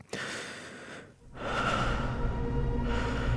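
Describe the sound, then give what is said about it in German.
Slow breathing, in then out: a soft breath followed after a short pause by a longer, steady exhale, faint and without any talk. “Einatmen. Ausatmen.”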